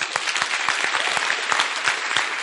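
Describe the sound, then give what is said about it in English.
A church audience claps together during a service. The clapping is dense and steady, with a few sharper claps standing out across the whole stretch. “God bless you. And stand to your feet. Your clap was weak.”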